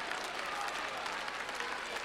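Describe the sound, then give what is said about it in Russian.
Applause for performers at the Big Moscow Circus on Vernadsky, a dense, steady wash of many clapping hands that holds at an even level throughout, with no individual claps standing out. “Наши аплодисменты Руслану Олехно. Наши аплодисменты его очаровательным коллегам, которые находятся на арене цирка, и э, замечательным исполнителям, которые находятся на трибунах Большого Московского цирка на Вернадском.”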